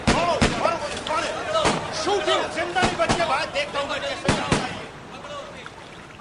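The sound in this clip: Soldiers fire gunshots at a man escaping into the sea: many sharp cracks at irregular intervals, heard under loud shouting voices.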